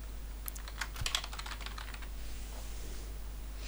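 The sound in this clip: Typing on a computer keyboard to enter a location name for a set of photos, a quick, faint run of light key clicks in the first half that then gives way to quiet with a low steady hum.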